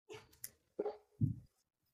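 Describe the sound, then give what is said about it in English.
Dogs barking in a few short, sharp bursts with brief gaps between them, moderately loud and with no voices over them. “I have dogs.”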